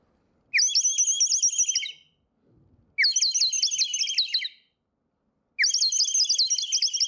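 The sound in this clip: A clay bird whistle filled with water is blown in three warbling, high-pitched trills separated by brief pauses, bubbling like birdsong.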